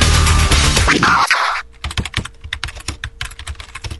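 Computer keyboard typing while someone writes an online review: many rapid, irregular key clicks in the latter part, after a louder wash of sound that cuts off.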